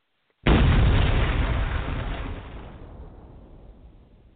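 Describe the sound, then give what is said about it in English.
A bomb explosion sound effect hits with a sudden, loud deep blast after a short silence, then rumbles and slowly fades away over several seconds. “I love the unnecessary bombs, B. This shit is legendary.”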